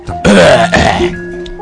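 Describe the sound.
A loud, rough throat clearing in two quick voiced rasps, followed by a faint lingering hum and no speech.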